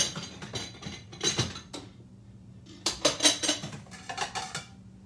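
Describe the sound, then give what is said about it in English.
Dishes clattering as a plate is fetched while cooking: quick, bright clinks and knocks of crockery in two busy bursts separated by a short pause, with no talk. “I'm going to get a plate.”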